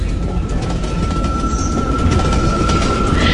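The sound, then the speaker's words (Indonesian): A train that had broken down starts moving again. It makes a continuous heavy rumble of rail noise with a thin, steady high whine running through it, loud and unbroken for the whole stretch. “Aku rasakan kereta ini kembali bergerak.”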